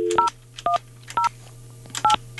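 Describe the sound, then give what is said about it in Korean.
Telephone keypad tones as a number is dialed to place a call: several short, bright dual-tone beeps in an uneven rhythm, some in quick pairs, over a low steady hum, with no talking. “이분 한번 전화 한번 해보겠습니다.”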